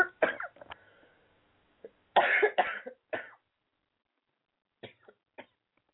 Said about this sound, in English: Now I get a tickle in my throat.